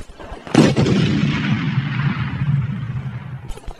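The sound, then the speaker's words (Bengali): A bomb explodes in one sudden, loud blast, followed by a long, rumbling decay that fades gradually over several seconds. “কি হলো, বোমাটা ফাটলো না কেন? এমনটা তো হবার কথা নয়।”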